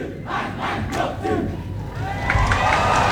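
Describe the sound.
A crowd cheers and shouts at a Balinese stage performance welcoming the Gianyar Regency delegation, a dense, roaring wall of voices that grows louder toward the end.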